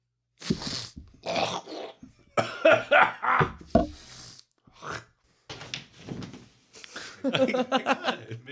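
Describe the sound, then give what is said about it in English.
Someone coughs harshly and clears phlegm from their throat in a long series of rough, rasping bursts. The bursts come in uneven clusters separated by short silences and grow thicker and more prolonged toward the end. “I need a phlegm break.”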